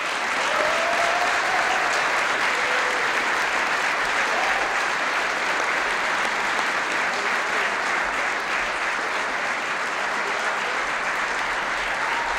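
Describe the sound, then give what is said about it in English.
Loud, dense audience applause welcoming a guest speaker onstage at a hosted event, steady and unbroken for about twelve seconds with no talking over it. “Will you please all put your hands together and help me welcome Michael J. Knowles.”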